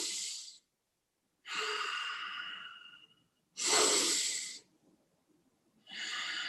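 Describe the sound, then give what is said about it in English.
Controlled, slow breathing: a few breaths, each a soft airy rush, with one long exhale that tapers off gradually. Silent pauses separate the breaths, and no voice is heard. “I would default into just a controlled breathing pattern where I'm probably just inhale, brief pause, exhale, and just trying to slowly slow down my exhale after I've trained”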